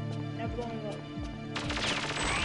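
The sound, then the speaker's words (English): Gunfire in a video game: several sharp shots crack over a steady, tonal game soundtrack, ending in a louder, denser burst of noise. “Well, yeah, waste your ammo on it. That thing's bulletproof.”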